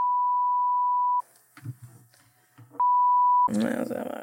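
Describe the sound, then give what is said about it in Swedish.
A ringback tone while placing a phone call: a steady, pure beep lasting over a second, a pause with faint background noise, then a shorter second beep that cuts off as talking begins. “Vi ska ringa till Emil.”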